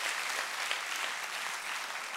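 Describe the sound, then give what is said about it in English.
Applause from a church audience: dense, steady clapping from many hands, evenly loud throughout with no pauses. “So can we give it up for everybody that's joining us today online or...”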